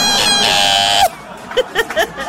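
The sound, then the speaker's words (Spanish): A voice imitates squealing car brakes with a high, strained squeal that holds steady for about a second and then drops sharply. A few short voiced bursts like laughter follow. “Y como nuestros frenos andaban sonando, fue un chillido así como...”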